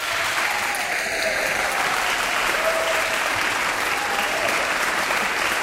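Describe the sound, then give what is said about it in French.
An audience applauds in the foyer of the opera house in Lille, a dense, steady wash of clapping that holds at an even loudness for the whole stretch without easing off. “nous sommes, oui, au foyer de l'Opéra, à Lille, avec un beau public qu'on va entendre tout de suite.”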